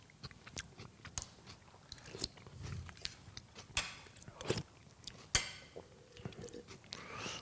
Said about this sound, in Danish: Lidt musling skal der også til. Frygtelig besværlig mad at sidde og spise det her, hva'?